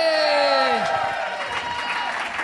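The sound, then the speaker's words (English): An audience cheers at a live comedy show at the Rhino Room in Adelaide: a long whoop that falls in pitch rides over dense, loud crowd noise of clapping and shouting. “Hear that, people at home? You thought it wasn't going to fucking happen, did you? That is an audience. Listen to that shit.”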